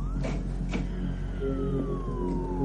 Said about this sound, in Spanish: Cierra la puerta y comienza a bajar las persianas.